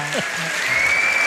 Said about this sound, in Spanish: Lo mejor son los aplausos.